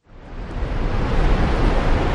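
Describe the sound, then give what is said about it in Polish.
A Canadian waterfall, 53 metres high and 323 metres from edge to edge, pours 567 litres of water per second. Its steady, dense roar swells in at the start and then holds evenly. “Od krawędzi do krawędzi ma tylko 323 metry, wysokość 53 metry, a ten wspaniały szum to tylko 567 litrów wody na sekundę nam spada.”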